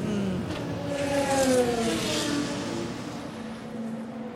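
The number 60 sports car leaves a pit stop at Watkins Glen during a WeatherTech Championship race after a right-rear tire change. Its engine note climbs as it accelerates away, a fairly faint steady drone that then settles.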